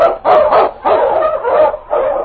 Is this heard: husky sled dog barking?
yes